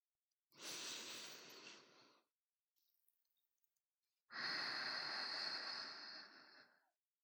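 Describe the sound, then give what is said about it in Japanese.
Someone takes two long, deep breaths, each an airy rush of several seconds separated by a short quiet pause; the second breath is louder and longer than the first. “次に深呼吸をしよう。普段から深呼吸やってないでしょ。”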